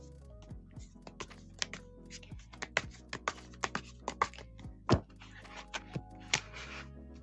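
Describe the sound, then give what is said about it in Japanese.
Shuffling of a deck of oracle cards gives many sharp, irregular clicks and snaps, fairly faint and uneven in rhythm, with no talk. “今私カードを切ってますので”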